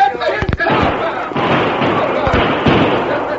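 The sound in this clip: Several sharp gunshots ring out at a fleeing man during a frontier skirmish, cracking as separate hard bangs over a dense, noisy background with voices.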